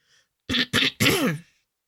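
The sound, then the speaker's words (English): A man clears his throat in three rough bursts. The last burst is the longest and falls in pitch, and the sound stands alone in quiet. “He clears his throat”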